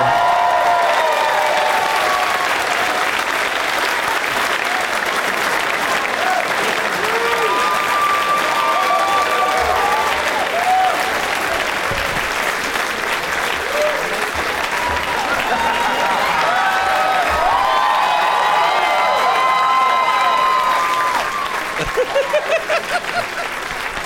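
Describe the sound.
Sustained, loud applause from a comedy-show audience welcoming comedians to the stage, a dense steady wash of clapping with some crowd noise that holds for about twenty seconds before easing slightly at the end.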